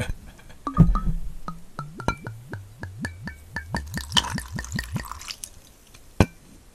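Gin is poured from a bottle into a glass in a quick run of many hollow glugs and plops that rise in pitch as the glass fills, followed by a sharp knock against the glass.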